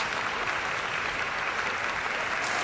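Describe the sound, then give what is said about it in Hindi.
An audience applauds with a continuous, dense patter of many hands clapping at an even level from start to finish. “तालियां इनके लिए, वाह जी वाह।”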